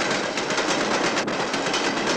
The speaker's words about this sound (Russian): На встречу едет состав с цистернами.